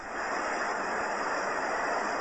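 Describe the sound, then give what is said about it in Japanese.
Typhoon wind roaring as a dense, continuous rush of noise that stays steady and loud throughout, with no voices. “これ台風ね。”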